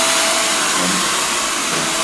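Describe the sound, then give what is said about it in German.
A hair dryer blows right after a haircut, its loud, steady airy whoosh continuing unbroken and even in tone for the whole moment. “An der Länge dieses, dieses Föhnens könnt ihr ja übrigens ermessen, wie viel Haare ich noch habe.”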